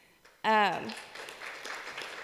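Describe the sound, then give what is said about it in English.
Light audience clapping breaks out after an announcement about 463 packed shoeboxes. A voice is heard briefly at the start, then scattered claps continue at a modest level. “Wasn't expecting a clap”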